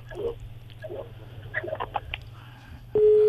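A telephone busy tone after a call is cut off: a loud, steady electronic tone starts abruptly near the end, following low line hum and faint scattered noises.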